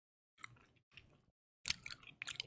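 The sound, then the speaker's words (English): Gum chewed close up for an ASMR video: several short bursts of moist, clicky mastication separated by brief silences, soft overall, with the last burst fuller and wetter. “I needed some gum because I haven't had gum for an ASMR video in a long time.”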